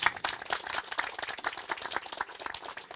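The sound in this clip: Audience applause for a contestant at a summer event, fairly faint, steady clapping that runs throughout.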